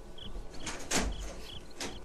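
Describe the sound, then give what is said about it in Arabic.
A door being opened to let a guest in, heard as a few soft scraping and creaking bursts, faint and brief against a quiet background. “افتح الباب ودعه يدخل، الضيف حبيب الله”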